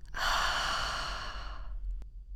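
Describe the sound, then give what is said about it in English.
A single long, airy breath out, soft and steady before fading away, taken during a slow calming breathing exercise of in through the nose and out through the mouth. “We're going to start by breathing in through the nose and out through the mouth”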